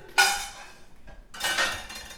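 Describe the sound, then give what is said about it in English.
A spoon stirs pasta with Parmesan in a pot, making a sharp scrape and a rough swish, a faint click, then a second, longer scraping swirl, all without talk. “Give it one last good stir. I will give it one last good stir.”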